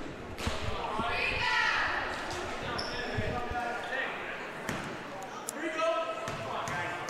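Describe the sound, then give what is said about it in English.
A basketball dribbled a couple of times by a player at the free-throw line during a game, just before his second shot. A few dull bounces sound over a constant crowd murmur. “Mize with a couple of dribbles.”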